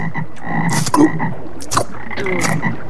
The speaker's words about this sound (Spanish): Lo más increíble y mágico de las ranas no es que puedan escalar como el hombre araña, ni que se conviertan en princesas o escriban poemas.